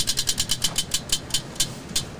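Ticking of a spinning prize wheel during a game: many sharp, bright clicks in rapid succession that gradually spread apart as the wheel slows, heard alone without talk.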